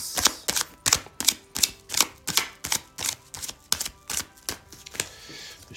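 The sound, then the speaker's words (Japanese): Oracle cards being shuffled and drawn give a steady run of many crisp, sharp paper snaps in an even rhythm, each one brief and bright, with no voices. “ショーカードね、3枚引いていきます。”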